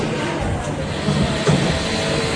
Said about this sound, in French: J'arrive dans le métro.